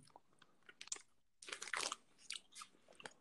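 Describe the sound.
Chewing of fresh cherries, close and quiet, with wet, crunchy bites arriving in irregular bursts separated by brief pauses.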